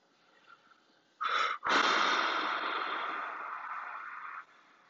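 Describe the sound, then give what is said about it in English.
Heavy breathing in two parts: a short, forceful snort-like breath, then after a brief pause a long, loud, wheezing breath that lasts about three seconds before cutting off. “sorry, you know, I'm big, so I need to breathe.”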